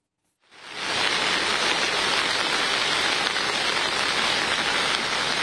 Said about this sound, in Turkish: Sağanak her geçen dakika etkisini artırdı.